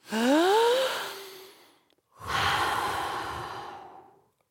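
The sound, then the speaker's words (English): A group catches its breath with two long, deep breaths. The first is a loud, voiced sigh with a rising tone, and after a short pause a long, breathy exhale slowly fades out. “Okay, the music has stopped. Let's catch our breath all together now.”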